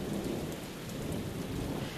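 A rainstorm pours down in a steady, loud hiss of falling drops with a low rumble underneath. It runs unbroken throughout with no voices.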